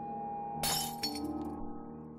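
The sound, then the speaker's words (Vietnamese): Glass shatters in a karaoke room: a sharp crash, then a second impact and scattered tinkling fragments, fairly faint against a steady tonal hum in the background. “có tiếng thủy tinh vỡ trong phòng karaoke”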